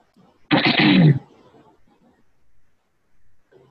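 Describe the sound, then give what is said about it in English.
A person clears their throat once in a single loud, rough burst lasting under a second, followed by a faint low murmur. “Glad you cleared your throat.”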